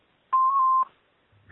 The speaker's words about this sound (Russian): Оставьте, пожалуйста, ваше имя и номер телефона после звукового сигнала.